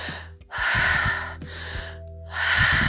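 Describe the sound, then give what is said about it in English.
Continuous breathing in and out through the mouth, loud airy rushes of breath following one another with almost no pause between them, a few full breaths in a steady rhythm. “which is in through the mouth and out through the mouth. And it's a continuous breathing. There's no stopping.”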